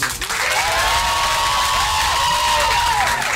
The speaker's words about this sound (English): Whoa, those people were pretty enthusiastic, weren't they?